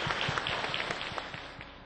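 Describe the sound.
Audience applause after a talk, a steady patter of many clapping hands, fairly faint and even throughout, with no voices.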